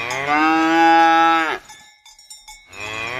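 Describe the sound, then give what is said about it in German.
Cows on a farm being called for milking: a loud, drawn-out moo that sinks in pitch at its end, then a few bright clanks of cowbells, then the start of another moo. “der Bauer ruft seine Kühe. Die werden jetzt gemolken.”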